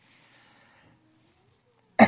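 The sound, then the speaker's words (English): A single sharp cough bursts into a microphone after near silence, loud and brief, and is cut off right at the end. “Try not to cough in this microphone.”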